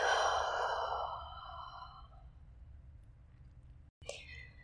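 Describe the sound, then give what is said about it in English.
A deep, slow exhale during a guided breathing exercise: a soft breathy rush that starts full and gradually fades away over about two seconds, then near-silence and a brief faint click. “Inhale completely. And exhale completely.”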